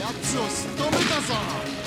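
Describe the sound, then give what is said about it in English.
A Magnum revolver fires in a video game, with a few loud, booming shots over the game's steady background noise. “Let's jump to the Magnum on this one.”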